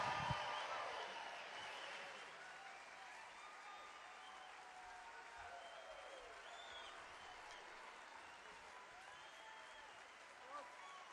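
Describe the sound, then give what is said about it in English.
Applause from a concert audience welcoming performers to the stage, strongest at the start and then settling into sustained, even clapping and crowd noise. “Welcome to the stage, Peter Rowan and Jerry Douglas. Give them a big hand.”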